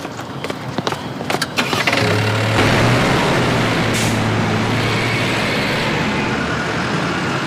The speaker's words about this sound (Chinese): 我们现在开车前往秀山岛。